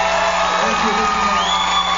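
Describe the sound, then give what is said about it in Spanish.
A concert audience cheers and whoops for the musicians, loud sustained crowd noise with shouts and yells layered over a dense, unbroken roar. “quiero que aprovechamos y le damos un fuerte aplauso, sí, a mis músicos.”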